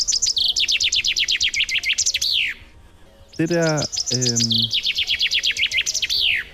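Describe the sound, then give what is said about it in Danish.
A chaffinch sings two phrases of rapid, high, descending trilled notes, each ending in a brief flourish, with a short lower, harmonic sound in the gap between them. “Det er bogfinken. Det er bogfinken.”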